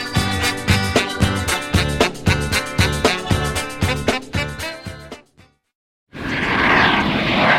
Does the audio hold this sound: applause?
no